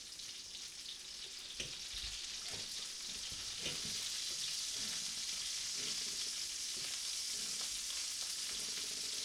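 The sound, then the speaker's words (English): Bacon sizzles steadily in a pan at a Super Bowl party, a constant bright crackle and hiss that holds at an even level throughout, with a few faint knocks mixed in. “All right. The bacon is back.”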